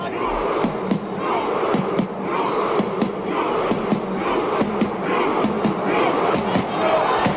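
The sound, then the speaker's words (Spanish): Norwegian football fans at the World Cup perform their rowing chant after a Norway match, as players strike a drum. Loud, pulsing crowd shouts are punctuated by many regular drum beats. “Otro de los sonidos del Mundial ha sido el del remo noruego. Sonaba después de cada partido de la selección noruega con golpes de tambor a manos de Ødegaard o Haaland.”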